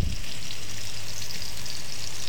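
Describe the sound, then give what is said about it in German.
Cervelat sausages fry in plenty of oil in a pan, giving a dense, continuous sizzle and crackle that stays loud and even throughout, with no talking. “dann haben wir da noch die Servelaredli schön in der Pfanne rein verteilt, mit genügend Öl.”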